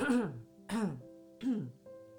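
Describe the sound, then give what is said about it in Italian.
A person deliberately clears their throat three times, each a short voiced rasping burst separated by brief pauses, at a moderate level with nothing else around it. “Sapete che questo rumore con la gola viene fatto anche quando dobbiamo segnalare a qualcuno un imbarazzo, un errore, oppure vogliamo fermare qualcuno che sta facendo o dicendo qualcosa che non va.”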